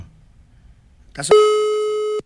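Ringing tone from a telephone call being placed: one loud, steady, mid-pitched beep holds for nearly a second after a quiet lead-in, then cuts off abruptly.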